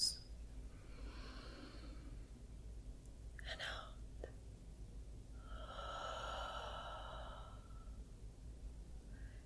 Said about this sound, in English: Breathe with me, okay? In through the nose.